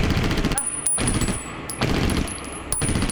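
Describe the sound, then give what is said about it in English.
Gunshots as a corporal shoots each corpse in the head: several sharp, loud cracks spaced apart over a noisy background, with a thin high ringing tone between shots. “The corporal, Raze, shoots each of the corpses in the head. Whoa, whoa, whoa, whoa, whoa, whoa, whoa. You don't need to shoot them again.”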